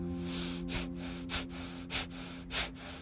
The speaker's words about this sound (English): and back out, and back in, exhaling, and you've just learned the breath of fire.